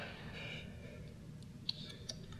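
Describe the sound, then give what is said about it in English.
Faint fizzing of a freshly opened Sam's Cola soda: a steady soft hiss of bubbles, broken by a couple of small sharp pops near the end. “A lot of fizz here, too.”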